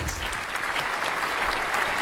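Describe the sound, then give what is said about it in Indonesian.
Parents and audience members applaud at a children's school quiz competition, a dense, steady wash of clapping that holds evenly throughout with no breaks. “sebelumnya tepuk tangan dulu Bapak Ibu. Kita berikan semangat untuk anak-anak kita.”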